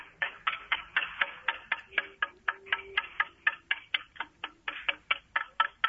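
A klepalo, the struck wooden semantron of the Church of Emperor Constantine in Niš, sounded on Good Friday to mark the new day: many sharp, hollow wooden knocks in a fast, steady rhythm, evenly loud.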